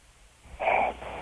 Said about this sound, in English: Now you can hear some big ones. Really? Yeah. We got big set rolling in? Yeah. See? Oh, my God. Oh, my God. That's sleep apnea, dude.